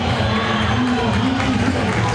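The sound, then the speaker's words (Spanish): Continuous crowd noise in a football stadium as a substituted striker leaves the pitch, a dense, even wash of cheering and clapping with no distinct individual claps. “Y la gente lo aplaude, Merentiel”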